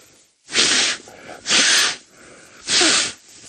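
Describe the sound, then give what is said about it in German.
Three forceful nasal snorts from someone clearing a broken nose without blowing it, each a short, loud breathy rush of air separated by brief pauses. “Die Nase frei zu kriegen, ist, wenn sie gebrochen ist, nicht so. Nicht so einfach, weil schneuzen soll man nicht. Das ist jetzt so ein freies Schnauben,”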